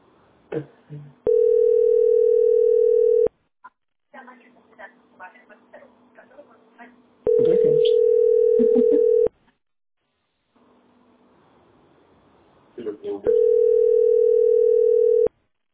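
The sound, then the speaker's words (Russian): A telephone dial tone sounds while a call is being placed: three steady, loud, single-pitched tones of about two seconds each, separated by quieter clicks and muffled handling noise. “Я звоню.”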